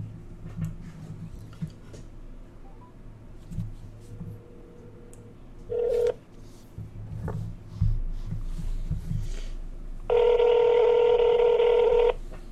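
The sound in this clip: Telephone dialing tones over a low background hum: a brief tone partway through, then a longer, steady electronic tone near the end as the call is placed.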